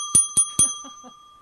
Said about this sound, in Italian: Ah, c'è un altro campanello là.